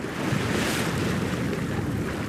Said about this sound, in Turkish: ilk yerli ve milli deniz dalga enerjisinin üretim tesisi alanındayız. Denizdeki dalgalardan enerji üretiliyor.